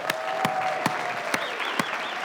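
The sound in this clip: Audience applause welcoming a speaker, a dense, steady wash of clapping throughout with a few sharper, louder claps standing out from the crowd.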